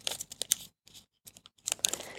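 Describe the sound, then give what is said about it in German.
Paper is folded by hand from the neck to a corner of a paper bird model with a beak. Crisp rustles and creases come in short bursts around a brief quiet gap. “und vom Hals bis diese Ecke falten. Ja. So, ne, vom Hals bis hier.”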